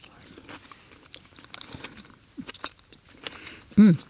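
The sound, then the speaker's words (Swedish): Crunchy cookie crumbs mixed with sauce are bitten and chewed: faint, scattered crisp crunches and soft chewing noises, followed at the end by a short voiced hum. “Då tar man lite sånt och sen får man liksom hela kombon av lite crunch, lite sås, lite syrligt, lite fett. Nu ska jag smaka då.”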